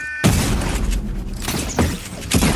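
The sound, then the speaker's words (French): Gunfire and explosions from the online shooter video game Fortnite: loud, dense, crackling bursts, with a few sharper blasts punctuating the continuous noise and no speech. “Voilà, c'est un jeu un peu brutal, un jeu vidéo de tir en ligne.”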